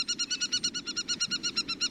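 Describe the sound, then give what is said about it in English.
An aplomado falcon gives a rapid, evenly spaced series of many sharp, high chattering calls, faint and regular in rhythm, over a soft background hiss. “This time, the sparrows escape, and their pursuer, an aplumado falcon, alights to survey the landscape.”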